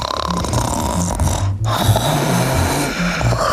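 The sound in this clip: A voice imitating snoring in a playful exercise about a tired horse, making a rough, rattling, low-pitched snorting sound that runs continuously with one brief break midway.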